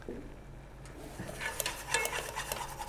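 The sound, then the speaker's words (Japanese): Food is stirred in a pan on a stove over very low heat. Faint scraping and light clinks of a utensil against the pan grow slightly busier in the second half, with no speech. “確かにひたすら混ぜて る、ひたすら混ぜる、でもこれ1個なんでもうすぐできるんですよ”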